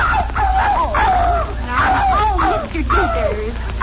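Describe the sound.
A dog yelping and whimpering as its tail is stepped on, a continuous run of high, wavering yelps and whines that swoop up and down in pitch over several seconds above a low rumbling background.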